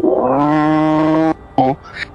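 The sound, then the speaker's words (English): A human voice imitates a snarling cat with a long, growling yowl that lasts over a second, then a brief second snarl and a faint trailing breath. “The cat just looks at you, flew, and goes,”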